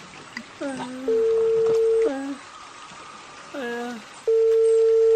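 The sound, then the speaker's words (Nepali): Telephone tones as someone places a call after a car has slid off a slippery road: two long, steady beeps separated by voices, with rain-like noise underneath. “एकपल्ट रमेशलाई phone गर्नु पर्यो।”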